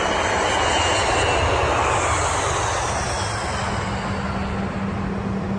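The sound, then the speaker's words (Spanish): A fixed-wing airplane flies overhead with a steady, loud engine drone. The dense roar holds evenly for the whole clip with no other sounds. “Cuando el avión llega a su destino, el mismo Nick Fury”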